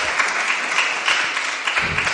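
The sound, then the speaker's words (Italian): Council members at a municipal council meeting in Italy break into applause. Dense, steady clapping runs for about two seconds at moderate loudness. “I consiglieri scatenati negli applausi questa sera.”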